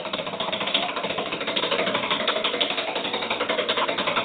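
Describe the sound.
A prize wheel spins in a studio, its clicker ticking in a fast, even rhythm that holds steady at moderate loudness, with no talk over it.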